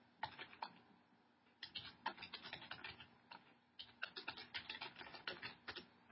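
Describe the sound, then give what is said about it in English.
Faint typing on a keyboard, with rapid irregular key clicks in bunched runs, a short pause near the start, then steady busy tapping to the end. “Let me type it in.”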